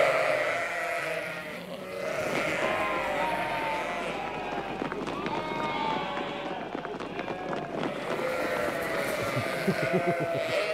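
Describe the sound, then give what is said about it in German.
Sheep and lambs bleating on a farm at lambing time: many overlapping calls over the continuous bustle and shuffling of the flock. “Auf dem Hof von Landwirt Kai Petersen in Kaitum ist Lammzeit.”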